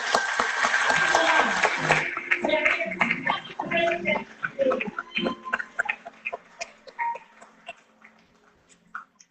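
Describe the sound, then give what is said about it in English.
Audience applause at a graduation ceremony, a dense burst of clapping for the first couple of seconds that thins into scattered, uneven claps and fades toward the end. “Put your hands together again for me for the graduation.”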